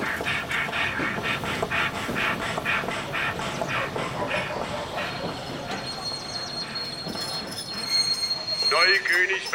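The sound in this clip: A train rolls into a station, its rhythmic wheel clatter thinning out as it slows before brakes squeal near the end as it comes to a stop.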